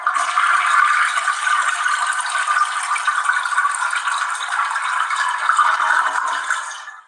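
A toilet flushes with a steady, loud rushing hiss of water that lasts about seven seconds and fades away at the end. It is heard alone, without talk.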